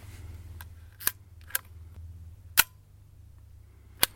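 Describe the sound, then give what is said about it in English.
Sharp camera shutter clicks ring out one by one, a few crisp, bright snaps spaced irregularly over a faint low hum, with the strongest clicks standing well above the quiet background. “on to camera number five. There we go. shutter sound number 1, 2, 3, 4, 5, 6.”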